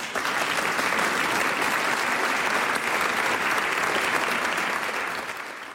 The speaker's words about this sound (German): Und auch der Applaus ist, glaube ich, natürlich auch eine Stärkung.